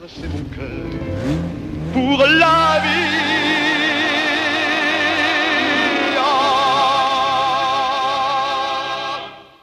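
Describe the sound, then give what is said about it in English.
A red Ferrari accelerating away: a loud engine roar whose pitch climbs sharply early on, then holds as a sustained, strained howl with a wavering tone before fading out at the end. “They toss the equipment into the back seat of a red Ferrari, don sunglasses, and blast off.”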